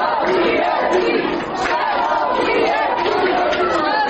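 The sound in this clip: Students chanting at a university protest, gathered by the rector's office: loud, continuous massed shouting voices with a brief dip partway through before the chant resumes at full strength.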